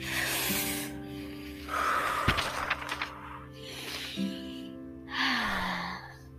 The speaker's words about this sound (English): Let's take a deep breath before we get to this part.